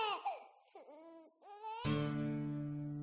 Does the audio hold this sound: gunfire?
no